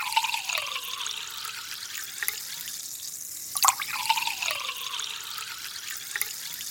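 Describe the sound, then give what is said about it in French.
Sparkling water poured into a glass at an aperitif gives a steady fizzing, splashing hiss throughout, with a brief sharp tick midway. “Qui veut du champagne? Personne? Ah bon? Alma et Monique veulent un verre d'eau gazeuse.”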